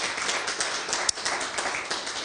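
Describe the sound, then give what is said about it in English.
A church audience claps in praise, a dense, steady patter of many hands that holds at an even level with one sharper clap standing out midway. “Let's give yourselves a hand clap of praise.”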